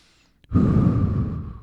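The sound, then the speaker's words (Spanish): One deep, loud breath taken during a breathing exercise: a sustained, airy rush of air lasting over a second that tapers gently at the end, with no talk. “inhala, exhala eso es uno.”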